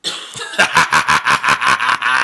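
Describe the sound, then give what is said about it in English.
Coughing comes in a rapid run of many short, rhythmic bursts, loud and breathy, close together with an almost laugh-like bounce and no speech between them. “So if y'all hear me cough every now and again, like right now,”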